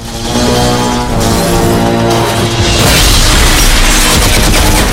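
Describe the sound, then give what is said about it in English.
Soldiers fire machine guns at barrels of beer in a bar, producing loud, continuous booming bursts and crashing impacts that grow denser and heavier toward the end. “The soldiers shoot barrels of beer with machine guns.”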